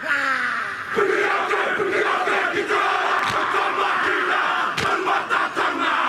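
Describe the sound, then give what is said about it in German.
Thousands of people in a New Zealand sports stadium perform a Māori haka war dance in a record attempt. A loud massed chant of shouting voices is punctuated by a few sharp, accented shouts. “Die Ureinwohner Neuseelands, die Maori, haben einen Kriegstanz, der heißt Haka. Dabei reißen sie die Augen weit auf, strecken die Zunge weit heraus und machen solche Geräusche.”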